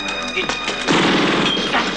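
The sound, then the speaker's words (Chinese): A bomb exploding at a department store: a burst of sharp cracks and then a loud, sustained roar that carries on to the end, following a brief tonal lead-in. “在两人奔出百货公司的最后一刻，炸弹爆炸了。”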